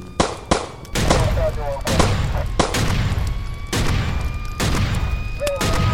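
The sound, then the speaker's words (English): Police gunfire in a dramatized scene: a few sharp, loud shots in quick succession, then more widely spaced heavy bursts over a sustained noisy rumble. “The police have opened fire.”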